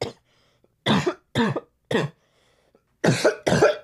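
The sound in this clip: A person coughing after using poppers: five harsh, dry coughs, three spaced apart, then a pause and two more close together, loud against silence.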